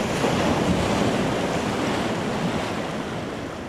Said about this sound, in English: Okay, too much wind that one